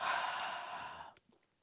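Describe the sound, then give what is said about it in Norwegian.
A single long, breathy exhale through the mouth during a calming breathing exercise, soft and sigh-like, fading out after about a second, followed by a few faint clicks. “Og da starter vi med å puste inn gjennom nesa, og ut gjennom munnen.”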